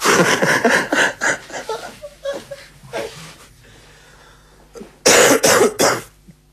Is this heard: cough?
yes

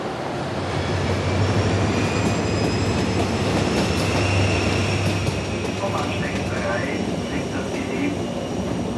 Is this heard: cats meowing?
no

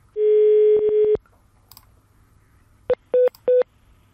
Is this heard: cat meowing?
no

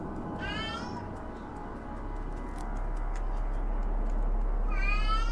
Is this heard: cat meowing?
yes

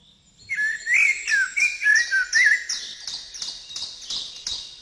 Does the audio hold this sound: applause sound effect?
no

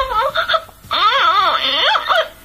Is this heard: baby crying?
yes

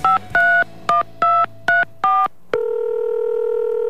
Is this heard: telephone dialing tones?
yes

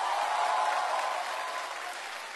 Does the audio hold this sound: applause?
yes

